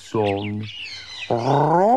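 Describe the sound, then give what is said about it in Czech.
A parrot squawks twice, each call a harsh, strongly harmonic cry with a wavering upper edge, separated by a short pause and fairly loud against a quiet background. “Rozhodl se, že papouška naučí mluvit.”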